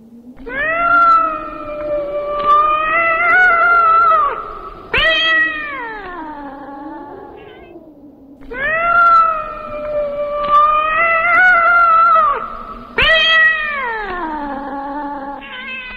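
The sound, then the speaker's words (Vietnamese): A lame cat yowls desperately in six long, loud, wavering cries. They come in two matching groups of three, and the last cry of each group slides downward in pitch. “Con mèo không ngớt kêu gào tuyệt vọng, tiếng kêu ứa máu như đang khổ sở cầu xin cái bia kia tha mạng.”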